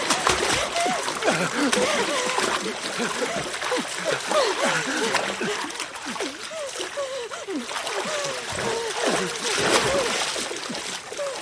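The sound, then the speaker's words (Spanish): Heavy splashing and sloshing of water as a man runs into it, a continuous churn of loud splashes throughout, with voices over the water. “Llega el pescador. Dios mío. Corre al agua.”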